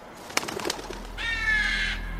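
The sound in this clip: A bird calls with a clear, slightly wavering tonal note lasting under a second, following a few brief soft sounds, over a low steady background hum.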